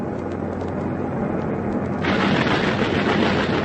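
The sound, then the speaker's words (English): Rapid thudding fire from a pom-pom anti-aircraft gun in a valley carries over a continuous heavy roar of aircraft noise. The roar turns broader and louder about halfway through. “There's a bloke manning that confounded valley pom-pom.”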